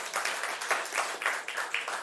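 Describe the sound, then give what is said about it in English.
An audience clapping for their worship leader, with soft bursts of claps coming in a loose, steady pulse at a fairly low level, with no voices standing out. “We can clap for Sean.”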